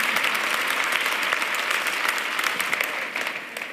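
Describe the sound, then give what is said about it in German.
Audience applause: a dense, even wash of many hands clapping that holds steady, then thins and eases slightly near the end. “Ja? Applaus”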